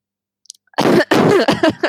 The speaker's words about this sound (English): do you know when you feel like a bubble in your throat and I was like, better just cough to get it out?